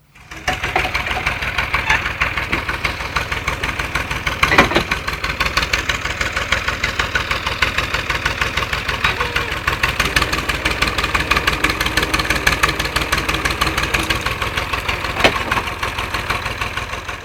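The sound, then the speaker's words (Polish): A tractor engine idles with a steady, loud, rapid chugging pulse that holds an even rhythm throughout, with an occasional brief knock or rattle. “Traktor.”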